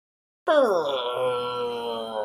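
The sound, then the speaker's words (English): Deep, old wood groans from overhead in a circus tent. The sound begins abruptly, slides down in pitch, then settles into a long, sustained resonant moan that holds at a steady loudness. “this deep, old sound of groaning wood.”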